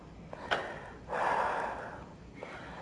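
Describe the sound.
Deep breaths taken during a guided relaxation exercise: a long, airy breath of soft noise, with a couple of briefer breaths around it. The breathing is faint, and no one talks.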